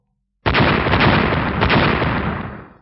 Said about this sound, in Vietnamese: Ba tiếng nổ liên tiếp vang lên